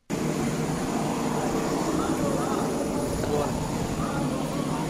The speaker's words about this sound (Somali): halkani waa garoonka diyuuradaha Muqdisho